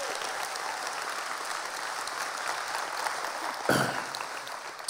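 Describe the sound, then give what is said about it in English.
A church audience applauding, a dense, steady roar of many hands clapping that holds evenly throughout, with a brief louder swell near the end. “Can we give it up for the Montoyas? Thank you guys so much.”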